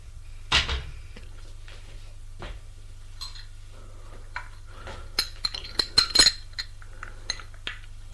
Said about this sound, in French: Elle revient avec un plateau. Elle les dépose sur la table basse